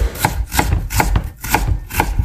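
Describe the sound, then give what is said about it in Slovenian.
Garlic or onion being chopped: evenly spaced knife strikes land on a board in a steady rhythm, each a crisp, fairly loud thunk, with no voices. “Če ste ugotovili, da je tole saklanje česna ali pa čebule”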